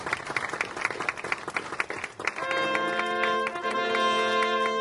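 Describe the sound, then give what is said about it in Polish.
Audience applause at an award ceremony honouring local officials: dense, steady clapping throughout, with a sustained tonal, music-like sound joining about halfway and continuing under the clapping. “Wielkie brawa, drodzy państwo.”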